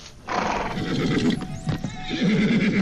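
Horses in a stable neigh and whinny, with scattered hoof clops. A loud, quavering whinny stands out toward the end.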